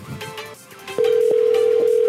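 Telephone dialing tones: a brief burst of short tones, then one loud steady tone that holds unbroken to the end.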